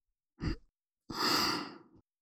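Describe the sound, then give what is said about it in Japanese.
Gentle breath blown out in two goes, a short soft puff followed by a longer airy exhale, with no other sound around them. “面白いからもうちょっとだけふうふうしてあげる。”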